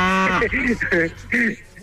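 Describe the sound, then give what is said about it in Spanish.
A person imitates a cow, producing a few drawn-out, voiced moo sounds in quick succession, breathy and throaty, with no other talk around them. “A ver, ¿cómo le hacen las vacas? Es importante, men. Bueno, le estás haciendo como buey.”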